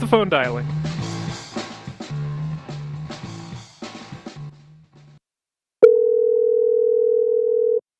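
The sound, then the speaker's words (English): A steady, single-pitched telephone tone sounds for about two seconds as a phone call is placed. It follows several seconds of voice and a brief silence. “Let's get this phone dialing.”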